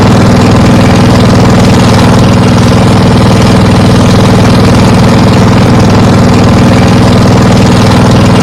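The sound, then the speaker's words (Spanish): A boat engine runs in Laos with a steady, loud, low droning rumble and faint vibration. The level stays constant throughout without any breaks, and no voices are heard. “el motor de una barca que nos puede llevar hasta Van Bien”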